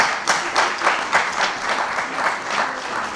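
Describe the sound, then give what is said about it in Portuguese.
An audience applauds a team at a public event. Dense, fairly loud clapping continues steadily for the whole stretch, with no voices rising above it. “Um aplauso para a equipa BNI.”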